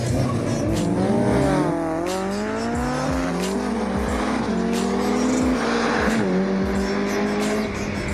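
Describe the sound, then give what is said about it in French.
A McLaren GT sports car with a 620-horsepower engine accelerating hard from a standing start. Its loud roar climbs in pitch, drops sharply at each of several gear shifts, then climbs again, with faint tyre squeal. “avec Adrien, moi j'ai ma McLaren GT de 620 chevaux”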